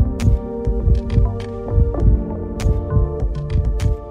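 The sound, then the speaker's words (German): A mother's heartbeat: many deep, muffled thumps pulse at a steady beat over a sustained tonal hum, with fainter, sharper ticks above. “Das erste Geräusch, was wir hören, ist der Herzschlag der Mutter.”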